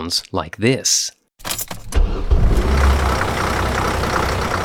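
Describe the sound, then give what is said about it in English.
A campus bus engine on a University of Alabama shuttle runs with a steady, broad rumble. It sets in after a short stretch of a man talking at the start. “It comes with a steering wheel, hydraulic doors, and a constant panorama of the University of Alabama in all seasons. Drivers for the Crimson Ride Bus system and Crimson Concierge serve as a kind of circulatory system”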